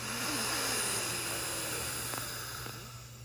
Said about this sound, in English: Nice big fresh inhale.